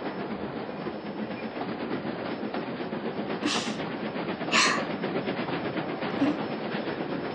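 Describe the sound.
Train running as it nears a station, a steady faint rumble with rhythmic clickety-clack from the rails, broken midway by two brief high hissing bursts.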